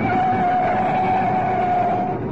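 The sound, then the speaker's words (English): A car engine drones steadily as the car is driven fast down a town road in pursuit, a constant hum with a steady whine running through it and no breaks or gear changes. “Nice driving. Now you've got a clear run down Oxford Road. Step on it.”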